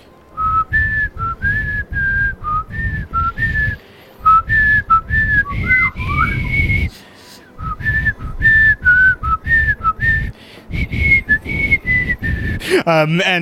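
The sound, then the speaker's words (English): A man whistles a tune meant to sound nonchalant: short, bright, clear notes in quick phrases, broken by a few brief pauses. The whistling is loud and carries on alone, with no talk. “the Sovereign Stronghold, and he stands there and begins whistling”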